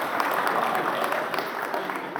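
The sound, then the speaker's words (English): An audience at a church applauds to welcome and thank a volunteer, with dense, even clapping that holds steady throughout. “Let's give her a warm welcome, a big thank you.”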